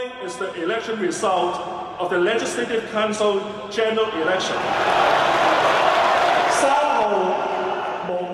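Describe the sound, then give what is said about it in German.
A crowd in the camp of newly elected legislators cheers as Hong Kong election results are announced. After voices at the start, a loud roar of cheering swells in the middle and then eases. “Jubel bei der Bekanntgabe der Ergebnisse im Lager der neuen Parlamentarier.”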